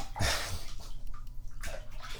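Bathwater sloshes and splashes while a baby's legs and feet are washed, with a louder splash near the start, another later on, and softer trickling in between.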